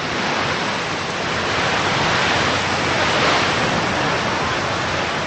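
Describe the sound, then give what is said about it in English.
Ocean waves rolling onto a beach shore make a steady, loud, broad roar of surf, a continuous hiss with no distinct breaks or pauses. “The waves roll on shore.”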